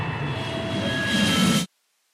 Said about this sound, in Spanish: Atención, tripulación. Abróchense los cinturones porque estamos a punto de despegar.